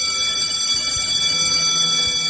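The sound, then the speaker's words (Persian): A school bell rings continuously to mark the start of the school year. It holds as one steady, bright metallic ring through the whole clip, at an even loudness, with no voices. “اینم از زنگ، اینم از زنگ شروع سال تحصیلی 92-93.”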